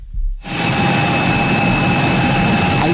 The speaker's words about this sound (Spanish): En ese avión volando a Barcelona, aquí estamos siguiendo el vuelo en pantalla en el Fly Radar